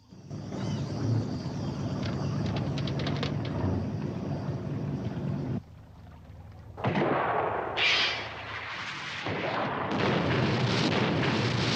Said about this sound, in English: A rocket explodes in front of Bond's boat, sending birds from a nearby tree flying off into the air.